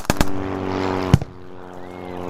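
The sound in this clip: Polish soldiers fire guns on command at a flying target during the Wehrmacht advance: three sharp, loud reports, two in quick succession and then one more, over a steady droning engine hum.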